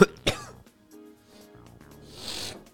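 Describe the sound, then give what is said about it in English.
Coughing from a person with a mucus-filled chest: two sharp coughs in quick succession, then quieter throat-clearing and breathy rasps. “Excuse me. Fighting through it. Fighting through the mucus.”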